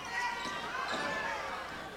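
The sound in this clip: Basketball dribbled during a Redhawks game, its bounces blending into a steady wash of crowd noise with voices throughout.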